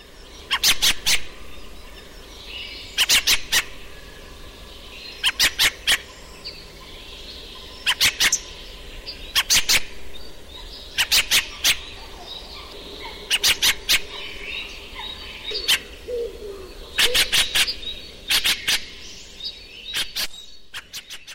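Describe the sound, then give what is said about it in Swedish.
Grating, chattering calls of a thrush, a cousin of the blackbird, flying between trees. Many short bursts of rapid, harsh notes repeat at fairly regular intervals, loud over a faint background. “Och så flyger den mellan träden med ett hiskeligt läte. Ja. För den är inte lika, låter inte lika vackert som sin kusin koltrasten. Nej, det gör den inte, nej. Den låter så här.”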